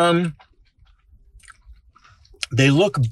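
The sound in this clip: Someone chews a barbecue-sauce fast-food burger, making soft, faint, wet crunching bites in a quiet stretch between louder bursts of talking at the start and end.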